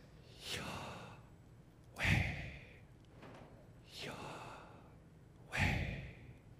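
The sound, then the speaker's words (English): A person breathes audibly to imitate the divine name: four slow, soft, airy breaths spaced evenly apart, quiet and with no spoken words. “So you don't speak the name of God, you breathe the name of God. So when you would address God, it would sound like this.”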